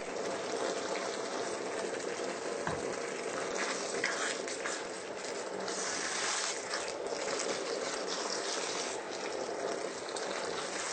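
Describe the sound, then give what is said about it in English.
Chili seasoned with sriracha simmers in a pot over medium heat, giving a steady, faint bubbling hiss that continues without a break, with no voices. “You'll want to let this cook over medium heat for about 30 to 45 minutes, and then you can serve it or save it.”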